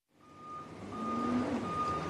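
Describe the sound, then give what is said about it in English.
A dump truck's reversing alarm as it backs up to a bay door at a trash building: a steady, high electronic beep over a rising low engine rumble. “At the front of a tall metal building, a dump truck backs up to a bake bay door.”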